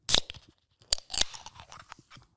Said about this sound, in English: All right, I'm going to attempt to open this can on camera.